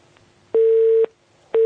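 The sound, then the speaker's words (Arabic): A telephone tone sounds after a call is cut off: steady mid-pitched beeps, each about half a second long with equal pauses between, one full beep followed by the start of another, loud and alone. “الاتصال انقطع.”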